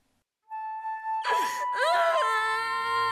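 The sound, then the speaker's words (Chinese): A man wails and cries in drawn-out, quavering sobs that break in after a thin sustained tone, his voice rising and falling in long anguished moans. “听着平庸的哭声和他对祖昌的质问，我的心在颤抖。”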